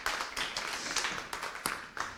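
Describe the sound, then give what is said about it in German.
Faint, brief audience applause at a talk, heard as a loose scatter of individual sharp claps rather than a dense wash. “Einmal Applaus noch.”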